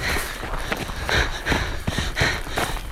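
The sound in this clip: Hurried footsteps and rustling as people run through a hedge: a dense, noisy scramble of brushing foliage and repeated thudding steps, with no clear speech.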